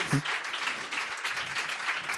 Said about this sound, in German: Dein Applaus.